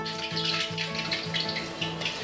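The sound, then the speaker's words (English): A mashed snack mixture bound with cornstarch and egg sizzles as it fries, a steady crackling hiss with music playing underneath. “So we mash into like a pate or mixture, and then add some cornstarch to bind it together, some egg to make it stay, and then we fry.”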